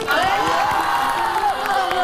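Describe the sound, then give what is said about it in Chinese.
Audience at a cooking show cheering and applauding to welcome the second chef, sustained whoops and cheering voices over a bed of clapping. “我们掌声有请第二位大厨。”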